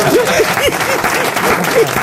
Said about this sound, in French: Vous applaudissez pas?